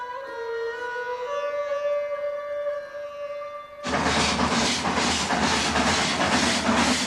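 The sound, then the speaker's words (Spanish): A steam train approaching a rural town: loud, rhythmic chuffing bursts of hissing steam break in partway through, after a sustained tonal passage, and keep pulsing steadily to the end. “Un tren se aproxima a una población rural.”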